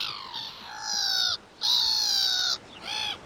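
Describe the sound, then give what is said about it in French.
Black-headed gulls call in a few harsh, drawn-out squawks with a laughing, nasal tone. The calls come in separate bursts with short gaps between them, clear and fairly loud, with no voices. “n'est pas marin, lui, la mouette rieuse. Mouette, c'est à vous.”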